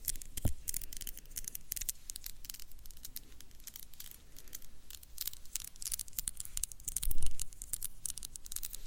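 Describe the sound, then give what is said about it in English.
Fingernails being cut short with many sharp, crisp clicking snips in irregular succession over a light rustling background, with a couple of duller thumps. “Actually, I decided to cut my nails. I'm tired, but they're mine. I'm gonna go to short ones.”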